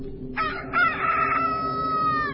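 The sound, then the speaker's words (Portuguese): A rooster crows once, a bright, harmonic call lasting about two seconds that starts with a short rising note and settles into a long, steady held tone, heard alone. “o galo cantou.”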